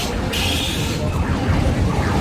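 Busy funfair ambience: a dense, loud wash of noise with a brief sustained high tone early on and sliding electronic tones over a constant background.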